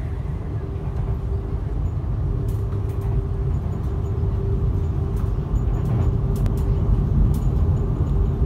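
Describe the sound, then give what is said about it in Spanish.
Train travelling out of the 28.4 km Guadarrama rail tunnel, heard as a steady low rumble with a constant hum and scattered light clicks and rattles throughout. “Posicionado y con mis acompañantes medio sonámbulos, el tren sale del túnel de Guadarrama, de 28,4 kilómetros, el más largo del país y el octavo del mundo.”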